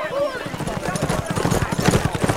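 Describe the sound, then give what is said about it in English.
Hooves of several horses in a posse riding past, a steady, fast clip-clop rhythm under a speaking voice. “Marshall Wright and a half dozen men he had hurriedly rounded up for a posse rode by.”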